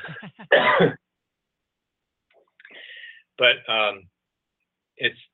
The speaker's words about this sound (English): So, excuse me. I need a cough button on my end.